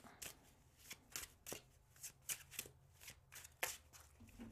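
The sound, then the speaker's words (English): Crisp riffling bursts as a Literary Witches Oracle card deck is shuffled, many quick papery flurries in an uneven rhythm, fairly faint with quiet gaps between them. “we're going to be using the Literary Witches Oracle deck, all right? Pull some cards,”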